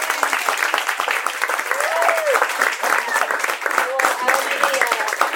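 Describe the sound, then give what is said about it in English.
Audience applauding an author at an evening book event: dense, steady clapping that stays loud for about five seconds, with voices and cheers mixed in. “Well, we applaud you for all of your hard work.”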